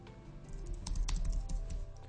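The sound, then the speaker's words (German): Typing on a computer keyboard during a live video stream: a quick run of light, irregular key clicks over a low, steady hum. “So, ich tippe mal.”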